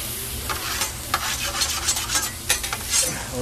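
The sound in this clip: Burger patties fry on a deli grill with a steady, fairly loud hissing sizzle, broken by scattered sharp clicks and scrapes.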